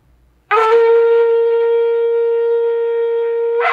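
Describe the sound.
Shofar blast sounding a tekiah, one long, flat, steady note that holds at an even pitch and loudness for about three seconds before a fresh attack begins at the very end.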